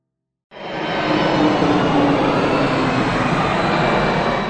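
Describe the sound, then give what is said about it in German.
Loud jet roar of an airplane on landing approach, about 85 decibels, at midnight: it starts abruptly after half a second of silence and then holds as a steady, broad rumbling roar. “Ja, das waren jetzt so ungefähr 85 Dezibel. Das ist aber beim Landeanflug jetzt.”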